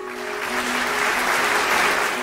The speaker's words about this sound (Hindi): इन सभी के लिए जोरदार तालियां।